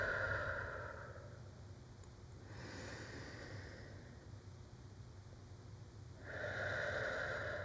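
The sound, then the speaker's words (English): Slow, deep breathing, in through the nose and out through the mouth: a few long, airy inhales and exhales alternate at a calm, steady pace with no talking. “I'm going to breathe in. And out. In through your nose. Out through your mouth.”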